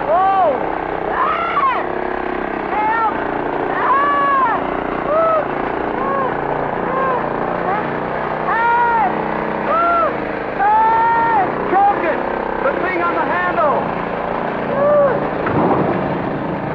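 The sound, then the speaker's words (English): A runaway motor roars on continuously and unchecked at a loud, steady level, with raised voices shouting over it throughout. “Why didn't you choke the motor? Choke it? If I could have reached it, I'd have broke every bone in this body.”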